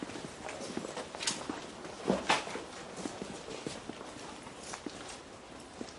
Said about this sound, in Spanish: camina por el patio hacia la puerta. Los demás le siguen.